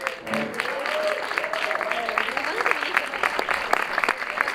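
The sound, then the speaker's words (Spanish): Audience applause at a live band performance as the musicians are introduced. Dense, steady clapping runs throughout, with a voice speaking over it at the start. “Un aplauso, por favor. El aplauso también.”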